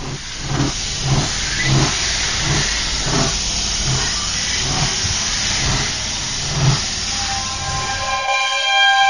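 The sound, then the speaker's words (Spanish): A train arrives at a station platform with rhythmic chugging and hissing pulses that repeat steadily. A high, tonal whistle sounds near the end. “Tren procedente de misterios y leyendas efectuará su entrada en la vía 4, final de trayecto.”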